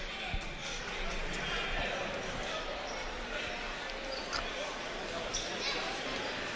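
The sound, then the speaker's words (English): A basketball bounced a few times at the free throw line during a game makes dull, faint thuds under continuous crowd noise and voices. “Two dribbles, spins the ball on his hand.”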